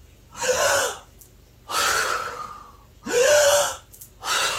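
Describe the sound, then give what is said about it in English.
Sharp, forceful breaths drawn during a breathwork exercise done sitting on the knees: four loud, rushing breathy gasps in quick succession, the last one cut short, with no talking. “we're going to want to breathe in when we come up. So it goes like this.”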